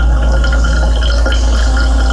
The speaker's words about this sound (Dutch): Een doorlopen van koffie.